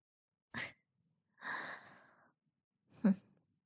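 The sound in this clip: Heavy breathing comes in three separate bursts with silence between them: a short sharp breath, a longer drawn-out one, then another short breath, all fairly quiet.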